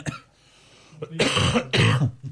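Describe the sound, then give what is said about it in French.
Two rough, throaty coughs from a man, each a loud harsh burst, coming in quick succession after a quieter stretch. “Désolé, je vais tousser un peu.”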